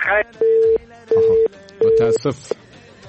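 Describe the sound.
A telephone line tone follows a dropped call: three steady mid-pitched beeps of equal length at an even pace, with brief bits of voice before and after them.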